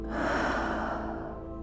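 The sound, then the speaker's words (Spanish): A single forceful exhale during a breathing exercise: a breathy rush of air that starts strong and fades gradually. “Inhala. Exhala con fuerza.”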